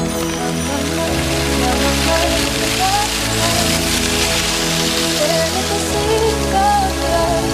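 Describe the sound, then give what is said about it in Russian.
Rain-like patter played by fingers on a doumbek goblet drum, a soft, dense rustling texture that runs steadily throughout under sustained background music. “Дождик тоже от него был.”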